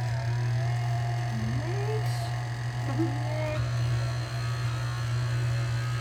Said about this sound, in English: We're trying to get the mixer on. There it is.